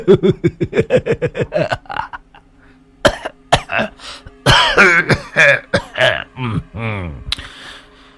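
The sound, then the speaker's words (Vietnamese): Coughing and throat clearing from an old man in poor health, performed by a voice: a rapid run of loud, harsh vocal bursts, a short pause, then several more hacking coughs and throaty rasps. “Dạo này sức khỏe không tốt, cớ làm sao mà hay ho thế.”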